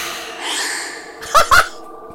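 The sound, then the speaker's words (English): A human breath: a soft airy hiss, then two short, louder gasping bursts close together near the end. “What is that first one? It's a human breath.”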